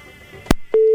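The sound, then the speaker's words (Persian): Telephone tone after a call drops: a sharp click, then a loud, steady tone that starts and keeps sounding to the end. “بله تماس قطع شد.”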